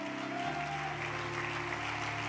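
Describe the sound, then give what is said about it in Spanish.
Applause from a church audience: a dense, even patter of clapping at low level, blended with sustained musical tones underneath. “Dele un aplauso a Él, el que lo cree.”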